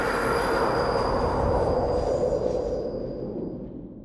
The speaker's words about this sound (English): everybody just sort of like stands there and endures the sound of the subway approaching, which it's well over 100 decibels